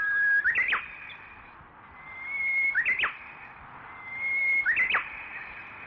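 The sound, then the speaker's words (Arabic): Birds chirping in a nature reserve: the same call repeats three times, a clear, steady whistled note that sweeps up into a brief, sharp flourish, loud and alone over a quiet background. “الصوت اللي في السماعات اتغير دلوقتي، يا ترى ايه ده؟ صوت العصافير. اصلا انا بحب قوي صوت العصافير اللي بتزقزق حواليا من كل مكان”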